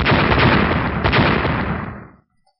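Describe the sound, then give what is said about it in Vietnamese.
Explosive blasts strike a glowing magical barrier in a fantasy audio drama: a loud, dense, continuous roar of bursts lasting about two seconds, then an abrupt cut to silence. “Ba tiếng nổ vang lên, trên màn hào quang có thanh âm bộc phát ra, rồi tiếp theo là một tiếng vỡ giòn tan.”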